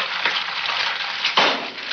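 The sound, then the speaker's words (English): Sizzling of an egg frying in a frying pan: a dense, continuous crackling hiss with no talk, swelling into a slightly louder burst of spitting near the end. “you may remember this PSA involving an egg and a frying pan”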